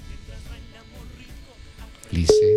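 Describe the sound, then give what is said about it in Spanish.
A telephone ringing tone on a call, a steady single-pitched tone that cuts in abruptly near the end after people talk. “Se fue la llamada. Vamos a ver. Primera timbrada.”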